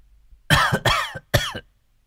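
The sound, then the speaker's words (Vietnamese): Three harsh, loud coughs in quick succession from a person with a seasonal cough, heard alone with no talk around them. “Xin lỗi thầy, dạo này thời tiết nó đổi mùa, tôi ho.”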